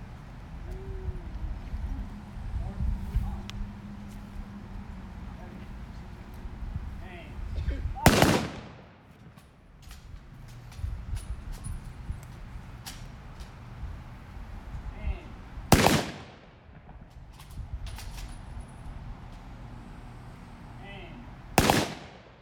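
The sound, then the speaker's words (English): Rifle volleys from a Memorial Day firing detail salute at a Belchertown observance: three sharp, loud cracks spaced several seconds apart, each standing out against steady outdoor background noise. “Commanders, bring your units to attention and present arms. Firing detail, commence with your salute to our departed comrades.”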